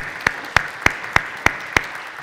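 Hands clap six times in an even, steady rhythm as a church audience welcomes its newest member. Each crisp clap stands out clearly with short pauses between.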